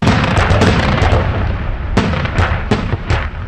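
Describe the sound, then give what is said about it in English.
A barrage of booming shots from Marine artillery guns firing on positions outside Baghdad, with dense rumbling blasts early on, then several sharp, separate reports in quick succession. “Those are the guns of the 1st Marine Division. They were aimed at those Republican guard positions we just heard about on the outskirts of Baghdad.”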